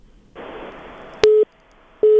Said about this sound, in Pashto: د دې تلیفون هم قطع شو